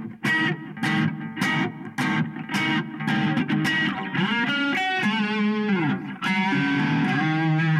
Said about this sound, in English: So what you hear is exactly this, the devil's interval.